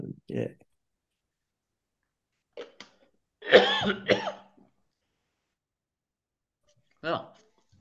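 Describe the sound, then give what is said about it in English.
Throat clearing in a few short, rough bursts separated by stretches of silence, with brief clicks in between. “Once you clear your throat, just repeat that stuff.”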